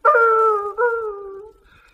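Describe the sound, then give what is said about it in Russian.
A puppy howls in two drawn-out, mournful cries, each a clear tone gliding slightly downward in pitch. The second is a touch shorter, and both are loud and alone, then fade to near silence. “Нищий щен заголосил.”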